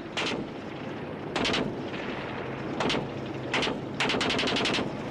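Machine gun firing short bursts in a war film battle scene, with tanks and infantry advancing on trenches; about five rapid rattling bursts separated by brief pauses over steady background noise.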